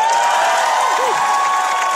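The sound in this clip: Studio audience applause mixed with cheering, a dense, continuous wash of clapping and crowd noise that stays level and unbroken for about two seconds, with no talk over it.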